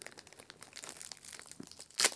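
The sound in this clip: Scissors cut open chocolate wafer packaging, producing a soft, continuous crinkling and rustling of wrapper material. Near the end, a brief, sharp, louder crackle of the cut stands out.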